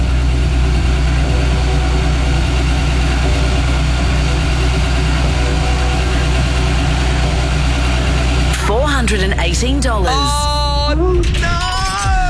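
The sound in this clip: A fuel bowser pump running at a petrol station during a game show, a steady, loud, low mechanical hum that continues unchanged while excited voices talk over the later part.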